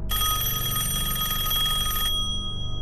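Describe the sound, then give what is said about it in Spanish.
A telephone rings in a family's home after midnight: one continuous, bright electric bell ring lasting about two seconds, then cutting off abruptly and leaving a low rumble, with no voices. “Recibieron otra llamada.”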